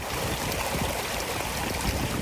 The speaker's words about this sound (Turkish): Yol kenarındaki duvardan akan yağmur suyu ise adeta şelale yağdırdı.